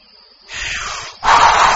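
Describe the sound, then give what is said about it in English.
A voice imitates a wolf blowing a house of leaves down in a children's story: two breathy, hissing blows, the second longer and louder. “The wolf blows the house down.”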